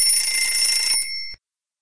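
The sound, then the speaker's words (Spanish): An alarm clock rings with a bright, steady metallic ring that holds for just over a second and then cuts off abruptly, leaving silence. “suena el despertador.”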